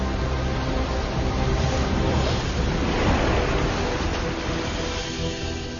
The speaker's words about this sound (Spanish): Los botes deben pasar por los últimos grandes rápidos del cañón, los Lava Falls. Una última vuelta salvaje para recordar a los científicos el poder natural que creó este lugar.